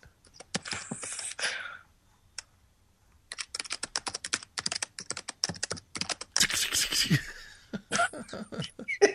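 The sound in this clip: Fast clacking on a computer keyboard comes in dense runs of keystrokes, broken by a short pause before the typing resumes just as quickly.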